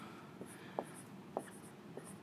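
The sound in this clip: Writing on a board for a diagram, a few faint, short scratchy strokes with small squeaky accents between pauses, with no talk.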